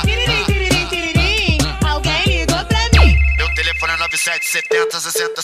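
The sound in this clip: A telephone ringtone plays loudly, a bright electronic melody of quick repeated notes in a bouncy rhythm, followed by sustained higher tones.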